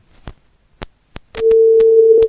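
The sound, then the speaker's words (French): A telephone rings on an outgoing call made to wish someone a happy birthday: a few sharp clicks, then one steady, loud ringback tone lasting about a second. “nous allons rapidement effectuer deux appels surprise pour souhaiter Happy Birthday. C'est comme ça, ça se passe par ici. Et ça sonne.”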